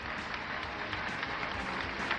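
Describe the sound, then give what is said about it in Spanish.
Faint, steady applause: a dense, even patter of many hands clapping with no distinct peaks, fairly quiet throughout and without voices over it. “Damas y caballeros, muchas gracias por el aplauso.”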